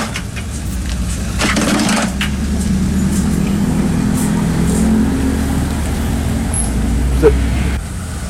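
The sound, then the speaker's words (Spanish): A vehicle passes on a noisy street where wooden boards dampen the traffic sound: a steady low rumble with some crunching and rattling, while people talk over it. “Cuando pasa un vehículo, ahorita vamos a ver cuando pasa un vehículo y ahí se va a escuchar precisamente el ruidazo de todo el día.”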